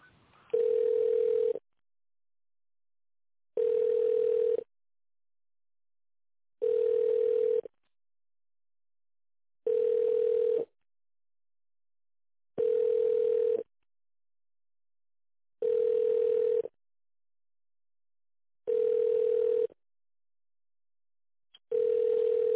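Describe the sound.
A telephone ringback tone sounds while a call is placed to an office: eight long, evenly spaced beeps at a steady mid pitch, each about a second long with silent gaps between, and no talking over them.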